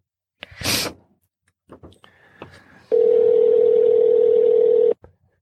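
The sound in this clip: Telephone dialing as a call is placed: a brief noisy burst, then a few short beeps from the keypad, followed by a steady, even electronic tone held for about two seconds before cutting off.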